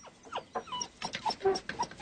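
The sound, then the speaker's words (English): A dog whimpers and yips in a run of short, high, quiet whines, with several brief squeaky bursts coming in quick, uneven succession. “will you put the damn dog back on the leash?”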